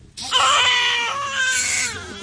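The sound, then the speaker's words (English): A newborn crying in a Nablus hospital, one sustained high, strained wail that holds loudly for about two seconds, wavering slightly before easing off. “In a Nablus hospital, the cries of a newborn as new life emerges from tragedy.”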